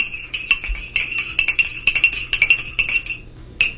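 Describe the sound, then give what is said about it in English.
A metal spoon clinks against a ceramic teacup in many quick, bright, ringing taps in an uneven rhythm, with nothing else heard, and the taps thin out toward the end. “Is it a spoon and a teacup? That is. That's exactly that is.”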